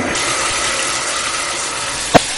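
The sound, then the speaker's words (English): Water runs from a bathroom faucet into the sink, a steady, fairly loud hiss that holds even throughout, with a single short click near the end. “And I come into the bathroom here to kind of illustrate. Turn on the water.”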